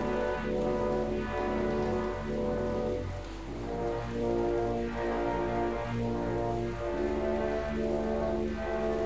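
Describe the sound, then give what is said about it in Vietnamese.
Steady rain makes an even, continuous hiss at a moderate level, with a low constant hum beneath it. “Hôm nay trời mưa đó.”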